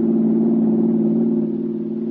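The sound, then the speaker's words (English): A car motor runs smoothly in an old buggy, making a steady, even hum that holds one pitch throughout. No voices are heard over it. “That's a smooth-running motor you have there”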